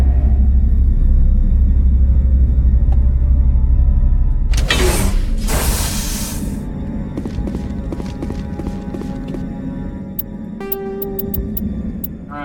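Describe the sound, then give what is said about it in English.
An elevator runs in a video game with a low steady mechanical rumble, a brief loud noisy burst midway, then light clattering and a few short high tones near the end. “Elevator.”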